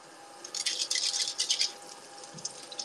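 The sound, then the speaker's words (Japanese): Chopsticks being washed at a sink: a stretch of bright, rattling clatter with splashing water, in busy bursts through the middle, then fading to a few lighter clicks. “箸を洗います。箸を洗ってどうしようかな。”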